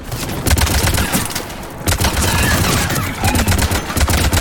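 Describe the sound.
Rapid gunfire fills a video game battle with tanks and troops. Dense, loud bursts of shots crackle almost without pause, with only a short lull before the firing picks up again.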